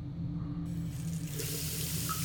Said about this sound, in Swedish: Plötsligt slog kranen på och vatten öste ner mot mig i väldig kraft.